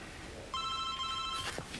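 A telephone rings once with a bright, steady electronic tone lasting under a second. It is fairly faint and heard on its own, with no talk over it.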